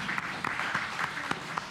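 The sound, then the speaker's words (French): An audience applauds a speaker, a faint, soft patter of clapping with a few sharper individual claps standing out at irregular intervals. “on peut applaudir Yacine.”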